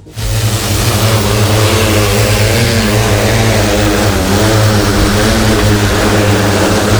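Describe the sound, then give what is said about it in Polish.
A drone in flight gives off a loud, steady propeller buzz with strong droning harmonics that holds the whole time, its pitch wavering only slightly, with no voices. “Korzystając z kilku mikrofonów, jesteśmy w stanie ocenić, w którym miejscu dron się znajduje, analizując tylko i wyłącznie dźwięk tego drona”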